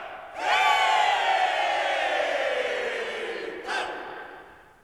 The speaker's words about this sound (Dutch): Juich toe!